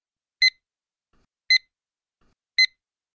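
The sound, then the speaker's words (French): Three short, identical electronic warning beeps, evenly spaced about a second apart, mark the start and end of an exam's listening-test audio. Each beep is bright and clipped, with near silence between them. “Al comienzo y al final de cada texto de audio se escuchará este pitido de aviso. Al final del examen se escuchará este pitido de aviso.”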